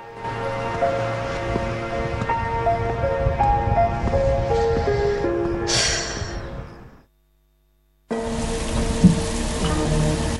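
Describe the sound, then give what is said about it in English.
Rain hammering down on a car as a dense, steady hiss and patter that breaks off into near silence for about a second, then resumes just as heavily. “as rain hammers down on her car”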